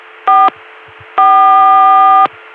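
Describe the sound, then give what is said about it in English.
A telephone dial tone reached over a CCSA private network through a PBX runs as a steady low hum under two bright, buzzy tone bursts, one short and one longer, that cut in over it. “here we are sitting on an Atlanta CCSA dial tone,”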